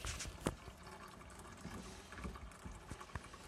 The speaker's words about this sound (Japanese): とりあえず3面盛り分ぐらいまでお湯を注ぐ。まあ、第一陣を適当にこう、ドボドボと注いでから、3面盛りになるまで待って